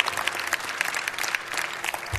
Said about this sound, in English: Let's give our first-time guests a big hand clap again.